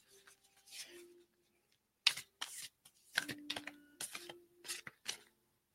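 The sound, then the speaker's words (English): Handling of a very large, thick deck of cards: many crisp rustling and riffling bursts of varying length, separated by short quiet gaps. “I can barely get my hand around all these cards. This deck is huge.”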